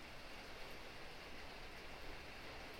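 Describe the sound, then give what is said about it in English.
Soft, steady rain patters in a continuous, even hiss with no distinct individual drops, heard alone and faint throughout. “So just listening to the pitter-patter of the rain”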